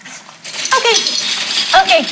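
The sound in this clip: Puppies whimpering and yipping, with two high, wavering whines standing out over a person talking to them.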